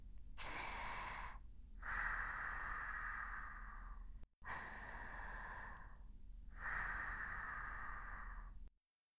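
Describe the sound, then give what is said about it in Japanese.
Deep, slow breathing during a guided breathing exercise: two long, loud, airy breath cycles in a row, each heavy and steady with a short pause between them, and no talking. “そんな時は深呼吸。ほら、”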